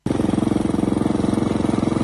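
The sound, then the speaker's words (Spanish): A lawn mower engine runs while cutting grass, starting abruptly and holding a loud, rapid, evenly pulsing drone with no change in speed. “Y sí, a veces hay que cortar el césped.”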